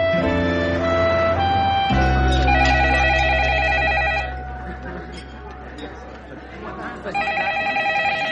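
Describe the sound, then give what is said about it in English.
A telephone rings on a business hotline line: rapid, loud, warbling electronic trills in two bursts separated by a pause, following an opening stretch of sustained tones. “that's our phone. That's the 4A hotline.”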